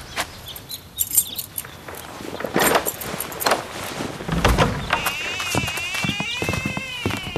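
Keys jangle and a lock and door clunk as a house door is unlocked and opened in a German-language audio drama, a few sharp metallic jingles and knocks standing out against a quiet background.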